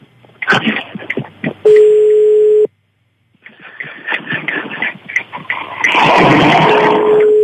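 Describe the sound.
A phone ringback tone sounds while a call is placed: two long, steady, low-pitched beeps, each about a second, separated by a few seconds of other sound and voice-like noise.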